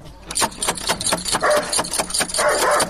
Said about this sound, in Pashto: اوهو دا څه بد سپی لري چې مونه داړي. هله دروازه را پورې کړه چې سپی را ونه وځي.